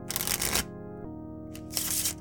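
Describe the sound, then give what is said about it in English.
Shuffling of a physical fortune-telling card deck: two brief, faint papery riffling bursts separated by a pause, over a quiet steady hum. “shuffling. Oh, cool sound effect. Yeah. Where'd you get that from? That was no sound effect. I have a physical, Harrow deck, compliments of Paizo.”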